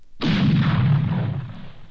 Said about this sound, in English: Choose one. You'll hear shots.